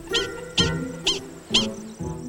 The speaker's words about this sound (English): The prairie dog. You might easily overlook the prairie dog until it opens its mouth.